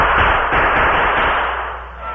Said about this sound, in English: I'll give them a few more shots.